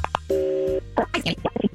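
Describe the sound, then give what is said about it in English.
A telephone call being placed: a single steady electronic tone, then voices talking. “Let's make the phone call and see who she decides that she wants to pick.”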